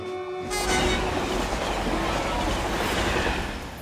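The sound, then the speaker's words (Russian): A train speeding past near a station: a horn note opens, then a loud, steady rushing roar of the passing cars carries on to the end. “Мимо на высокой скорости проезжает поезд.”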